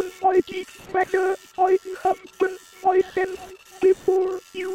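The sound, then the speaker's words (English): Toneless, metallic synthetic voices from prayer-printing machines speak in short, flat-pitched bursts, repeating in a steady, monotonous rhythm with brief gaps between phrases. “The machines talk as they print out their prayers. If you like, you can go inside and listen to them.”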